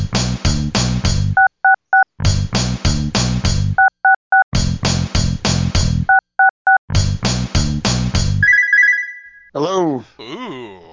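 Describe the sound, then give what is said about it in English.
Touch-tone dialing of the number 666 on a telephone: four rounds of three quick beeps, each set between louder ringing bursts, ending in a sustained tone and a wavering, warbling sound. “It's time to dial 666, the number of the geeks.”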